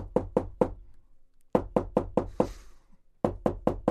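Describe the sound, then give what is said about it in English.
Hammering as a sound effect of nails being driven into a coffin: sharp wooden knocks come in three quick rhythmic runs separated by brief pauses. “This is the sound of him putting the nails in their coffin.”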